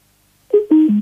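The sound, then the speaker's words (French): Electronic beeps: three loud, clean tones in a row, each held a moment and each lower in pitch than the one before, sounding alone against silence. “Ah voilà, il nous refait ses bips comme la dernière fois.”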